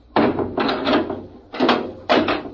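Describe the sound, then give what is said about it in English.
A hatch on a vehicle is slammed shut, giving a few heavy thuds and rattling bursts with sharp onsets. They sound alone, with no voices. “We'll slam the hatch and off we go.”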